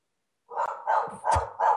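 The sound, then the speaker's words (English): A dog barks four times in an even rhythm after a moment of silence, each bark a fairly loud, mid-pitched burst. “I'm sorry about the dog.”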